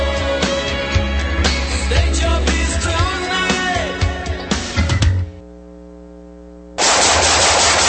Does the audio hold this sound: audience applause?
no